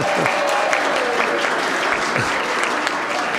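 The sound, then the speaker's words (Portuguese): An audience claps in a Brazilian Senate session, with dense, steady applause that holds at an even, fairly loud level for the whole stretch. “Pode bater palma aí que eu não fico bravo, não.”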